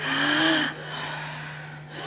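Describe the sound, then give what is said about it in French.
A long, deep breath drawn in during a guided breathing exercise. The airy rush is faint and lasts about a second, over a low steady hum. “On insiste sur l'inspire, l'expire se fait tout seul.”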